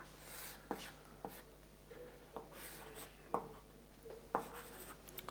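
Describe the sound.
Notation is written on a board during a math lecture: faint, soft scratching strokes broken by a few sharp taps, with no talk.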